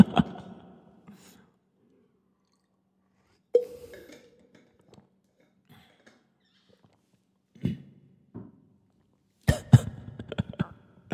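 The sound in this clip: Coughing and throat clearing from a singer pausing mid-song to clear the voice: a few short, rough bursts separated by quiet gaps, with a denser, louder cluster near the end.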